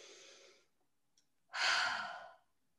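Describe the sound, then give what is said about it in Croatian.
Breathing during a guided relaxation exercise with eyes closed: one soft breath drawn in through the nose, then after a pause a louder, longer sigh-like breath out through the mouth, with no talking. “Napravite jedan udah na nos, izdah na usta.”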